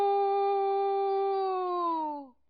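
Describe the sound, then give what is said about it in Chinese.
A human voice, nose pinched, imitates a rooster's crow: one long nasal tone that holds level, then sags in pitch and breaks off abruptly. “孟尝君正急得团团乱转的时候，门客当中又有一个惯偷出身的人在关前捏着鼻子学起了鸡叫。”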